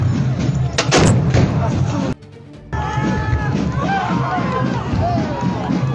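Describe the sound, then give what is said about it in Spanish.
Cannon firing a gunpowder charge at a festive dance celebration, with rifles also firing powder charges: a loud, sharp blast early on, then a steady wash of crowd noise and voices. “Vea cómo este joven ayuda a su compañero a mover el arma y se dispara justo en el momento cuando tiene la mano cubriendo el brocal.”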